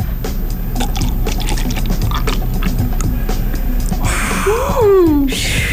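Liquid poured from a plastic container, the crinkling of the plastic louder than the liquid itself. A steady rustling leads into a gurgling pour with a tone that rises and then falls.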